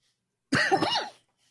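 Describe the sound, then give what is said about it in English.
A sudden cough from a coughing fit gives a harsh, rasping burst of about half a second with a couple of quick pulses, alone against silence. “I'm having a coughing fit all of a sudden.”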